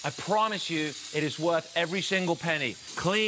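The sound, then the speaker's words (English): An X5 steam cleaner hisses steadily as it releases superheated water at 230 degrees. The bright, constant hiss runs beneath continuous talking. “You hear that? That's the sound of clean. That's the sound of steam.”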